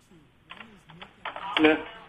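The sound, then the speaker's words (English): Typing on a computer keyboard while entering an email address: a few quiet, quick key clicks under a person talking. “Okay, I'm typing this in, so just give me a moment, please.”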